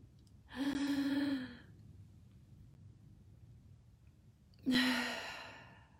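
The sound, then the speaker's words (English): Two deep breaths, each a long, breathy, sigh-like exhale of about a second, separated by a quiet pause over a low rumbling background. “Wow, look how good it feels to breathe in air. If you're watching this, take a deep breath with me.”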